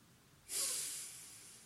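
A single slow breath during meditation: a soft, airy hiss that swells suddenly and then fades gradually, heard alone with no talk.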